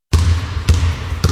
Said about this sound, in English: Floor pounding basketball and heart stuffing gospel music.